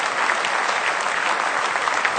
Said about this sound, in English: Give him one more hand clap of praise if you love him.